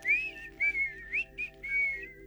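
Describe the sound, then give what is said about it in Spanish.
Soft, relaxing whistling: a melodic run of short, high, pure notes with gentle pitch glides between them, faint and heard alone. “Yo te he puesto a ti un silbidito para que tú te relajes. Ponte los cascos.”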